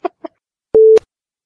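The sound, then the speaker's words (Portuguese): Skype incoming-call ringtone: two short electronic blips, then after a brief gap a single steady, clean tone that cuts off abruptly. “Olha, minha mãe tá me ligando no Skype, maluco.”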